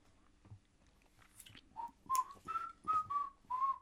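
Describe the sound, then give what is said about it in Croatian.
A worker whistles softly, a short tune of several clear, level notes after a few faint taps and rustles. “Da, da, zviždanje je bilo dobro, ne tako veselo.”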